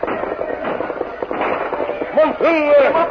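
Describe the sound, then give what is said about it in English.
Gunfire from a mounted war party opening fire on horseback, heard as a rapid run of sharp pops and cracks over a busy mix of voices, with a brief whining tone near the end. “The masked man and Tonto were some distance behind the hard-riding war party when the Indians opened fire.”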